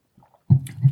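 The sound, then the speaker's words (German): A single sip of an alcoholic drink with a caramel-like sweetness, served just below room temperature: a short, soft, wet slurp and swallow, faint and heard on its own. “Ich nehme nochmal einen Schluck.”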